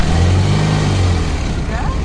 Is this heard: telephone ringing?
no